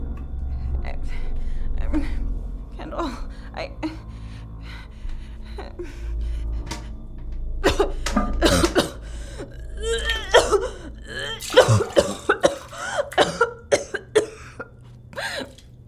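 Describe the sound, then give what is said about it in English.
Forced gagging and coughing from someone trying to make themselves throw up, mixed with gasps and whimpers. The bursts are irregular, sparse at first and then denser and louder in the second half. “Now throw up. No, I need one more to stabilize. If you don't stick your finger down your throat right now, I'm going to do it for you.”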